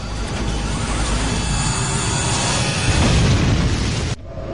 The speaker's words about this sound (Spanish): Segundos después, el avión de 400 toneladas se estrella.